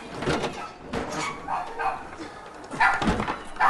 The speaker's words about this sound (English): The dog runs in.